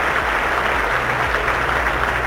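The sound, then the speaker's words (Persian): Canned applause is played for a caller on a radio call-in show, a thick and unbroken wash of clapping that stays loud and even from start to finish, with a low rumble beneath. “اول یه تشویق کنم شما رو که خودت میدونی که اینقدر مقاومی.”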